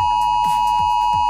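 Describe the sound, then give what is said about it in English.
An AusAlert emergency warning test alarm sounding on phones: a loud, steady, high-pitched electronic tone that holds unbroken from start to finish with no voices. “And every phone, tablet and smartwatch in Australia will blast an alarm at 2 p.m. today. It sounds like this.”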